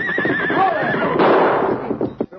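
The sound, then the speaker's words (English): A big stallion whinnies loudly in a long, wavering neigh that falls in pitch, then breaks into shorter snorting bursts as it throws its rider. “You're pretty smart, whistling to that horse, making him throw me.”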